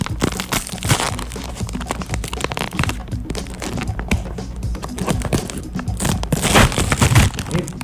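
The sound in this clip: Crinkling and tearing of a snack bag of pizza-flavored Goldfish crackers being ripped open: dense, loud plastic rustling and crackling that runs steadily throughout, with sharper crunchy bursts near the end.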